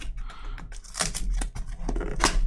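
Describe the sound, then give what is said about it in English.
A cardboard shipping box is opened with irregular tearing, scraping and crinkling, a few sharp rips among softer rustles, faint and with no talk. “Okay. Box is open.”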